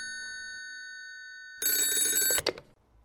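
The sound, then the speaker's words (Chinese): Telephone bell ringing, a steady tone that turns into a louder, rattling ring before cutting off abruptly with a short clatter. “等一下，我先去接电话。”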